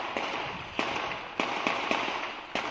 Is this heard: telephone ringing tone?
no